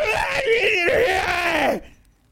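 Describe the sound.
A creature in a video game screams at the player as an elevator pops up. One harsh, harmonic scream lasts under two seconds, wavering and then falling in pitch before it cuts off to near silence.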